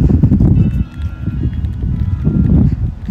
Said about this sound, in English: I wasn't planning on this day being so windy, but it sure is. But the breeze feels good with the sun blazing down.